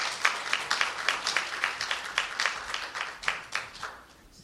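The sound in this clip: Scattered applause greets a pastor stepping up to preach at a church service. Distinct individual claps ring out in a loose, uneven patter that gradually thins and fades out.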